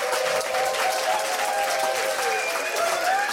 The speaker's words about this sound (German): Also es ist wirklich irre voll hier, Sie hören das.